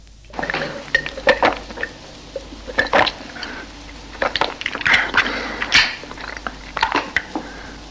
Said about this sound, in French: Si la chaleur vous fait absorber un verre d'eau, voici ce que l'on peut entendre.